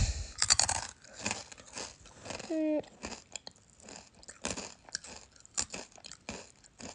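Crunchy rice crackers are chewed in many sharp, crackling crunches in an irregular rhythm, close and fairly faint, with no talking over the chewing.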